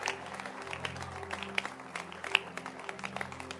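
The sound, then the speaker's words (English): A church audience claps hands in a continuous, fairly faint patter of many claps, with a low sustained tone underneath. “Keep clapping.”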